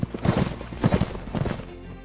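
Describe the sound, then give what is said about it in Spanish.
Heavy French cavalry horses charge, their hooves thudding in a few rapid, clattering bursts of clip-clop over a low rumble. “La caballería pesada francesa carga.”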